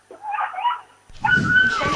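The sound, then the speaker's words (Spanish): A small dog whimpers in the rain: a thin, high, wavering whine runs from about 0.1 to 0.8 s, then after a brief pause a second, longer and louder whimper begins near 1.1 s over noisy background. “No, es un perrete, pobrecito. ¡Ay, el perrete! Que llueve, y el pobrecito se quiere ir.”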